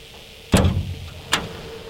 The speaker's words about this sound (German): Die dunkelgrüne blecherne Tür am Fuß des Windradturms wird geöffnet.